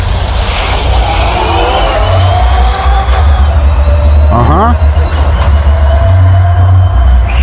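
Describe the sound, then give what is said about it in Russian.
A huge electric Tesla semi truck built to haul 37 tonnes drives off at its presentation. It gives a steady electric whine over a low rumble, and a voice briefly speaks partway through. “Во-первых, звук. Здесь огромный тягач, который 37 тонн должен тянуть. Вот звук его.”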